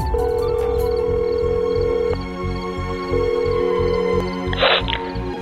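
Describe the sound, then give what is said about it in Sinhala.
Ringback tone of an outgoing phone call: two long, steady buzzing rings separated by a pause, followed by a brief crackling burst. “ඒ හින්දා විසල් නිම්නට call එකක් ගත්තා”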